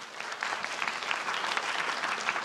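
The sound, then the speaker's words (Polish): Applause from an audience at a film festival event, greeting the film's maker: dense, steady clapping that holds at an even, fairly soft level throughout, without voices. “Wielkie brawa dla Mikołaja.”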